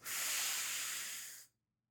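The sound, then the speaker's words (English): A single deep belly breath drawn in: a steady, airy hiss that holds for about a second and a half and then stops, with no talking. “So I want you to take a deep breath in”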